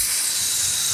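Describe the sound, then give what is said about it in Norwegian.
A beef patty sizzles on a charcoal grill, giving a steady, bright hiss that stays even and continuous with no pauses. “Det er lyden av en god kottebøff på en kølgrill.”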